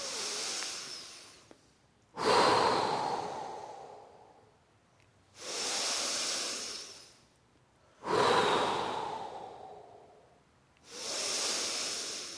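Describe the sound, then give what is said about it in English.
Deep breathing during a yoga breathing exercise: several long, airy breaths in a slow, steady rhythm. Each one swells into a loud hiss and then tapers off, with no talk. “And the integrated breath again.”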